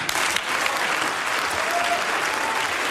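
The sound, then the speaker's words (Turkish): Loud applause fills the Baden-Württemberg state parliament chamber, a dense, continuous wash of clapping from many hands that stays steady throughout. “Baden-Württemberg Eyalet Meclisi'nde büyük bir alkış koptu”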